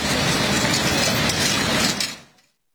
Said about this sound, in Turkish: Demiryolu turizmine yeni bir soluk getiren turistik Kara Elmas Ekspresi yeniden raylara iniyor.